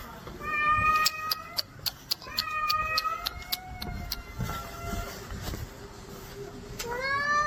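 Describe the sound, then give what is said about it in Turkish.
A cat with its paw trapped in an escalator at a metro station in Başakşehir, Istanbul, meows in pain, giving many high, strained, repeated cries over faint background noise and a series of sharp clicks. “Yürüyen merdivene patisini sıkıştıran kedi acı içinde yardım bekledi.”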